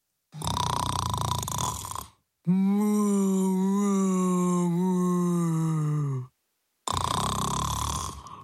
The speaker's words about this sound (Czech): Rozléhalo se doširoka. A v taktu chrápání se kropenaté boky krávy nadýmaly a splaskovaly.